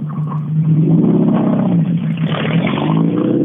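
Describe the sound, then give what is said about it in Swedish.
Loud, sustained engine roar from an orange Toyota Corolla rally car driving on a rally stage, a steady, rough, revving drone that swells slightly in the second half, with no voices. “nu står det en orange Toyota Corolla eh, nere i TK.”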